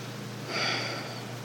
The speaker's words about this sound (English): She thinks if she breathes hard enough, I'll leave.